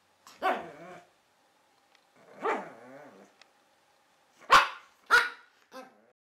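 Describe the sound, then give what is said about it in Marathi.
Dog barking: five separate sharp barks with pauses between them, the second drawn out and trailing off, the last three coming closer together, heard alone. “का ग का भुंकतीयस”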